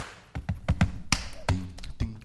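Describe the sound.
Body percussion played by hand on the body: a quick, irregular string of sharp slaps and taps with dull thumps underneath, clear and without talk.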